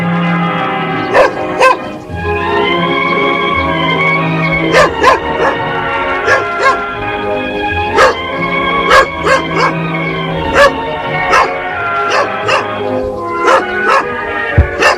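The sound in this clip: A small dog barks, letting out many sharp, high yaps in an uneven rhythm over a steady tonal background.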